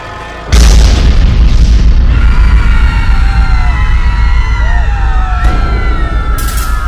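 A hand grenade explodes after landing in a passing car: a sudden loud boom bursts in, then a heavy rumbling roar holds to the end, with higher whining tones running over it.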